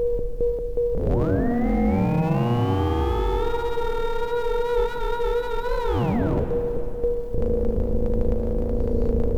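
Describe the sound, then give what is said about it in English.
Synthesizer patch on a Krell machine: a steady electronic tone with bright harmonic glides that sweep upward, hold with a slight wobble and fall away, then give way to a low throbbing hum, with no voices. “Do I trust myself enough to operate heavy machinery? Like this Krell machine?”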